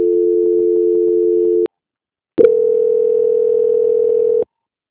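Telephone line tones during a call transfer: two long, steady, loud tones with a short silence between them, the second pitched slightly higher and cut off abruptly.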